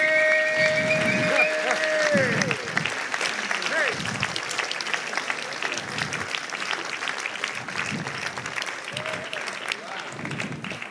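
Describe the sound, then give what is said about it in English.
Audience applause welcomes a host team as they come forward: dense, steady clapping for about eleven seconds, with a few voices and a faint tone in the first seconds. “Will you give these guys a hand for me as they come?”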